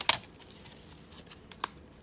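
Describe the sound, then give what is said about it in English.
Football trading card packs with gum inside are ripped open, giving a few faint, short crackly tearing and crinkling bursts separated by quiet gaps. “So we're going to rip these open and we're going to see who got the best card.”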